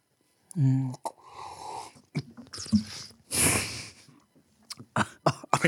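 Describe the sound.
A sputtering cough from someone who drew air through wine in the mouth to aerate it and caught it at the back of the throat. Short bursts and throaty noises are mixed with voices.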